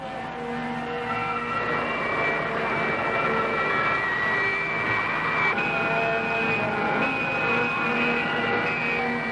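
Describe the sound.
An aircraft engine drones steadily under increasing thrust, a continuous whining hum with sustained tonal notes above a low rumble, heard alone.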